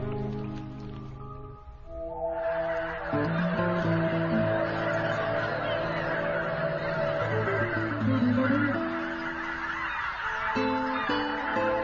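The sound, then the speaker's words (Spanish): A flock of geese returning in spring honks continuously, with many overlapping loud nasal calls forming a dense chorus over a steady background hiss. “El regreso de los gansos anuncia la llegada de otra primavera. De nuevo, forman impresionantes y escandalosas”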